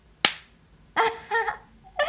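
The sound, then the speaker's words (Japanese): A single sharp, loud slap across the face cracks out near the start, followed by a brief quiet pause and then other sounds. “ビンタされ続けろよ”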